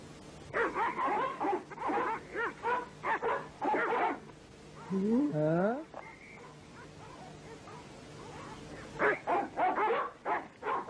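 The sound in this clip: A cartoon dog in a Kurdish animated series barks and whines among speaking voices, with a rising, whimpering cry in the middle of the exchange.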